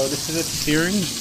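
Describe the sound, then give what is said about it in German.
Strips of marinated heart searing in a hot pan give a steady sizzling hiss with light crackle, heard under a man's voice talking throughout. “Ich brate das also jetzt nur auf 2 Seiten scharf an, sodass es auf beiden Seiten ein bisschen braun ist.”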